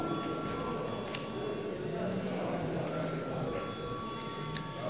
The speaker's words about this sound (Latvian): Paldies, lūdzu zvanu.